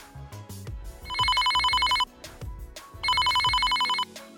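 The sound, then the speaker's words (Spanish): A telephone rings with an incoming call in two separate bursts of high, trilling bell tone. Lower background sounds continue between and under the rings. “Bueno, tenemos otra llamada en espera.”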